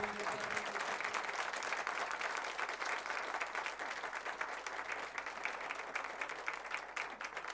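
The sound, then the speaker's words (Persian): An audience claps along to a recited poem, a steady, continuous patter of many hands that carries on evenly for the whole stretch. “اینجا باید دست بزنی.”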